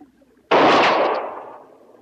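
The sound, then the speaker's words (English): A single loud pistol gunshot bursts out alone, its broad crack trailing off over more than a second. “I'm just trying out my arsenal. That was my pistol.”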